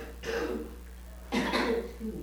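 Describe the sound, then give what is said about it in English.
Two rough coughs, each a short forceful burst, sounding about a second apart. The second cough is slightly longer and trails off with a fainter rasp. “I'm not sure I can without coughing.”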